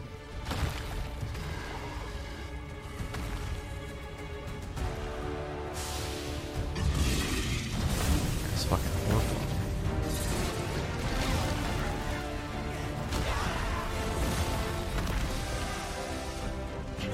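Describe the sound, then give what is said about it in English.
Trailer audio from the video game Monster Hunter Rise Sunbreak: a loud, continuous wall of layered music with heavy booming and crashing hits running throughout. “let's kick things off with a look at a new trailer for Monster Hunter Rise Sunbreak. Enjoy!”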